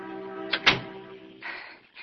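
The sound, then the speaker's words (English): A door closes with a sharp click and a brief knock over a soft sustained tone, followed by two short hissing swishes. “and the door is closing behind her.”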